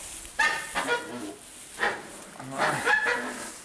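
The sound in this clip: Hens clucking as they are checked for eggs, a few short, throaty bursts of clucks that rise and fade at uneven intervals, with the louder calls clustered toward the end.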